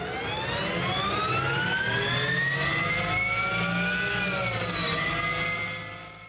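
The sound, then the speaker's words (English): An electronic whine from a Harley-Davidson electric motorcycle, created by the company's sound team. Layered harmonic tones climb slowly in pitch, dip briefly near the end and rise again, then fade out. The sound is loud and steady, with no talk. “The company is known for building large, powerful bikes with huge, loud motors. Here is what Harley's sound development team created for its electric model.”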